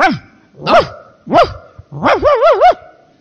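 A man imitating a dog barking: a few separate loud, voiced barks with bending pitch, followed by a quick run of several yelping barks, heard alone.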